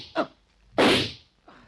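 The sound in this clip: Gunshots fired into bedding rolled up under the covers: two sharp, muffled cracks, the second broader and longer, followed by a fainter third burst, with no talk over them.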